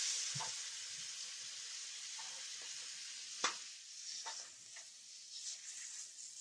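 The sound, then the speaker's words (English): Raw shrimp sizzle in hot fat in a pan, partly cooked before going into a sauce. The frying hiss is faint and continuous, with a few soft crackles and one sharper pop, and no voices. “I don't want to cook it all the way right now because I'm going to put it back into the sauce that we're going to make.”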